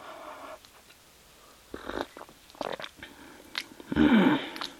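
Chewing and biting sounds as someone tastes food: a few short, moist bursts separated by quiet gaps, with the loudest and longest burst near the end.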